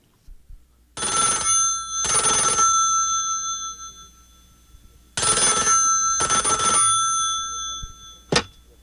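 A telephone bell rings in two long bursts, each made of a double ring, loud and alone with a quiet gap between them. A short sharp click follows near the end.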